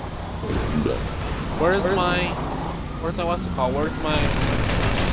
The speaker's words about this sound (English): Trying to shoot the boss.